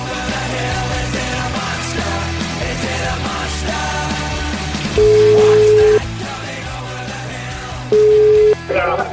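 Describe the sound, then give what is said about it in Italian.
Two steady, mid-pitched telephone tones sound while a call is being placed, the first about a second long and the second shorter, standing out loudly above continuous dense background sound. “Chiamiamo, chiamiamolo, ti prego, chiamiamolo.”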